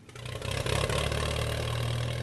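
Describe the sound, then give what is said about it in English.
A modified tractor engine that powers an antique corn mill makes a low rumbling drone. It swells over the first half second, then holds steady and level. “Up in Cherokee County, Randall Porter's firing up a modified tractor engine. It powers the antique mill he uses to grind his corn.”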